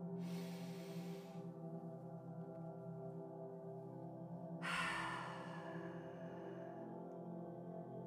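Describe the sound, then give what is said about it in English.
Deep breaths drawn in through the nose during a guided meditation, two soft airy hisses, the second fuller and louder, over a steady low sustained tone. “So we're gonna take another deep breath through your nose.”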